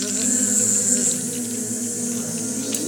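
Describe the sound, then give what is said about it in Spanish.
Angry bees buzz in a steady, droning hum that holds at an even level throughout, with no voices. “Y justo venían unas abejas muy enojadas. Querían picar a alguien.”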